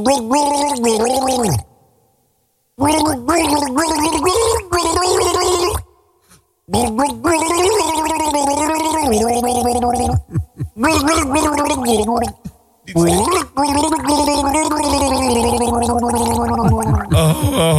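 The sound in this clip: Someone gargles a song, the bubbling throat sound tracing a wavering melody with sliding pitch lines, loud and steady apart from a few brief silent pauses.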